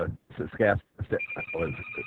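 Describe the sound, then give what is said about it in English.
A telephone rings as a thin, high, steady tone that starts partway through and continues faintly beneath people talking. “Yeah, the phone's ringing here, but unfortunately it's not for us.”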